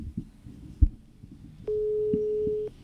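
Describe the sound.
A telephone ringback tone sounds on an outgoing call as a single steady buzzing tone about one second long, after some quiet low thumps.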